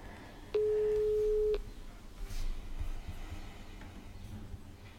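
An outgoing telephone call rings once with a single steady ringback beep about a second long. Quiet line hiss follows it.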